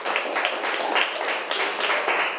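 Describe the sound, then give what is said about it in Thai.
A classroom of pupils applauds a classmate for a correct answer, a dense, even patter of many small hands clapping steadily throughout with slight swells. “ถูกต้องค่ะเก่งมากปรบมือให้เพื่อนหน่อยค่ะ”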